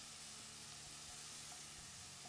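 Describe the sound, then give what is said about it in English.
Fresh feta melting onto asparagus in a hot pan: a steady, even sizzle and crackle of frying, continuous and fairly quiet throughout, with no voices. “We're gonna put it all throughout here. Melting it down in there. Oh, it's gonna be all nice and just, it melts onto the asparagus, so pretty.”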